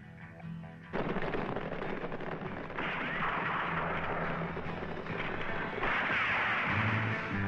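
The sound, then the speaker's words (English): Gunfire from a film trailer, a professional killer shooting, erupting after a quiet second into a loud, dense barrage of many rapid shots that continues to the end. “See how Chaco shoots?”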